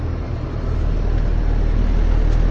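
Steady low engine rumble and road noise of a car driving toward Přeštice, a continuous, fairly loud drone that stays even throughout with no voices.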